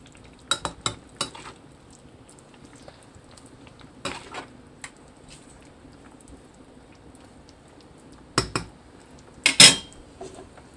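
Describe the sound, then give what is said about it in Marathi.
Chicken sautéing in a pan with garam masala and coriander: a soft frying hiss runs throughout, broken by sharp clanks and scrapes of a utensil against the pan in scattered clusters. “गरम मसाला थोडा जास्त घालायचा, आणि chicken शिजताना थोडीशी कोथिंबीर घालूया. व्यवस्थित परतून घेऊ.”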